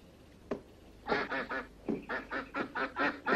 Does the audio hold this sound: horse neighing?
no